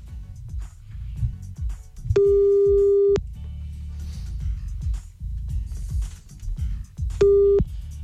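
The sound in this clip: Telephone busy tone after the caller hung up: two steady single-pitch beeps, the first about a second long and the second shorter, over continuous low background noise.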